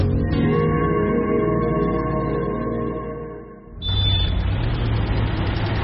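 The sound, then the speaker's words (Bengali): A car drives slowly. A steady, humming engine drone fades slightly, then gives way to a louder, broader rumble of rolling noise. “গাড়ি চলে আস্তে, driver Ghanshyam মনে মনে বিরক্ত হয়।”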